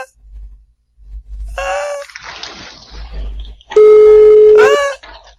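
A telephone rings out while a call is being placed, a single loud, steady ringing tone near the end, preceded by gasps and murmured vocal sounds.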